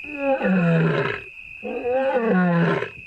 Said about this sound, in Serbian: Ako neko nije čuo kako se dozivaju zebre, evo sad može da ih čuje i lav ih vreba.